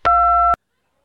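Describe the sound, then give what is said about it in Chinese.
A voicemail beep sounds as a single steady electronic tone lasting about half a second, followed by silence. “您已进入语音信箱，逼声后请留言。”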